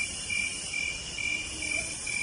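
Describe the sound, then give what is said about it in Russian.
A many-voiced chorus of starlings, resembling crickets, forms a dense, steady high trilling that continues without a break and swells gently several times, with no voices. “И это многоголосие, да, скворцовое. Спасибо, Александр, что поставили.”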